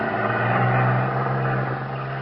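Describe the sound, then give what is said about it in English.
A small cruiser boat's engine drones as it pulls away across a channel toward the mainland, a steady low rumble that eases slightly toward the end. “You watch the small cruiser pull out. Head across the channel to the mainland.”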